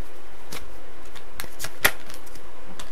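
Tarot cards being shuffled: several dry, crisp snaps and flicks at irregular intervals over a quiet background, one noticeably sharper than the rest.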